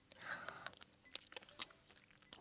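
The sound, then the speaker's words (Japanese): Eating a caramel-flavoured sweet: quiet, wet chewing and sticky mouth clicks in a quick, irregular patter, with a few sharper crunch-like ticks. “すごいキャラメル味、もう匂いが、キャラメルの香りが、いただきます。”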